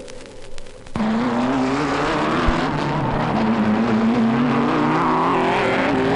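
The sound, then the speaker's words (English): Race car engines roar at the Daytona 500 speedway: a loud, steady droning whine kicks in abruptly after about a second and holds, its pitch wavering and creeping slightly upward, over a quieter rumble before it. “Good afternoon, racing fans. We're broadcasting to you directly from the Daytona 500 Speedway.”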